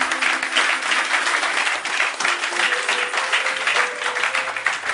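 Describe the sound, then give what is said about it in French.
A church audience applauds in dense, sustained clapping that stays steady and loud throughout, with faint voices mixed in. “Est-ce que quelqu'un peut acclamer le Seigneur?”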